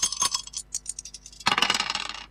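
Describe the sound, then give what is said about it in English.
Dice thrown onto a surface give a flurry of sharp clicks and clatters, sparse at first and then a dense rattling burst in the final second. “And let's just throw the dice to see what we're going to play.”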